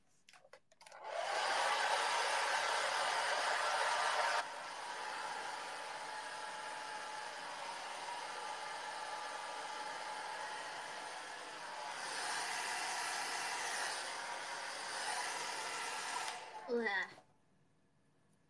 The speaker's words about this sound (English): Hair dryers. You guys can hear me when I'm talking. It's really noisy.